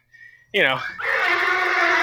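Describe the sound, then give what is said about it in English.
A horse neighs: one loud, long, shrill whinny that breaks out after a brief faint sound, then settles into a sustained, wavering, high-pitched cry. “Jesus, that horse is not happy.”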